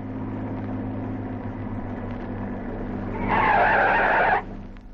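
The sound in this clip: Car tyres screech as the car skids to a stop, a loud squeal of about a second rising out of a low engine rumble, then breaking off to the quieter rumble.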